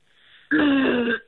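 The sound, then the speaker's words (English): A voice imitates a little cough: one short, raspy, throat-clearing burst lasting under a second, following a faint lead-in and ending in a quick catch of breath. “He makes like a little cough sound as well.”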